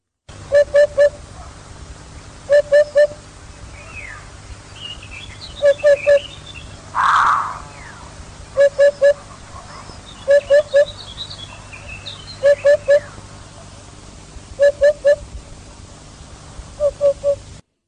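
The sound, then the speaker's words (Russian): Hoopoe calling in a forest: soft, low hooting notes in tight triplets, repeated in eight evenly spaced groups about two seconds apart, with faint chirps of other birds and one brief louder burst midway. “Удод.”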